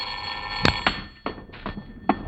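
An old-style telephone bell rings in a few short, sharp bursts spaced irregularly, fairly loud and alone with no voices.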